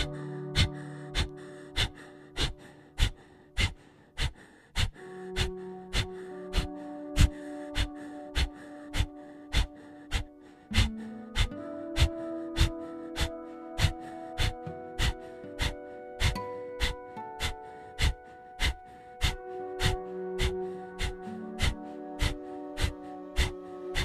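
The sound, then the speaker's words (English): During a yoga breathing exercise, short nasal inhales alternate with quick, sharp snapping exhales, many of them in a fast, even rhythm over soft, sustained instrumental music, with no speech. “Short inhale through the nose. And quick snap exhale.”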